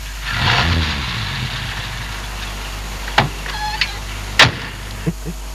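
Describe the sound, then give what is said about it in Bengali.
A car arriving: a low, steady engine hum with a louder rumbling swell near the start, followed by a few sharp clunks and clicks. “গাড়ির শব্দ”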